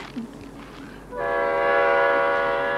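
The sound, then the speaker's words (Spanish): Passenger train about to depart at a station: low, rumbling background noise gives way midway to a loud, sustained, multi-toned horn blast that holds steadily to the end. “tienes que bajar. El tren está a punto de salir.”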